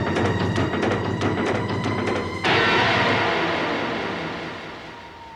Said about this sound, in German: Der fährt ja ohne Licht. Dafür umso schneller.